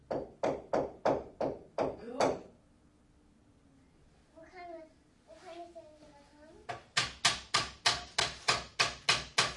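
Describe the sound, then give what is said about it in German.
A hammer strikes nails in a workshop: a quick, even run of sharp blows, a pause while a child speaks, then another steady run of loud strikes. “Mit dem Hammer vielleicht? Ja, genau. Das ist ein Hammer.”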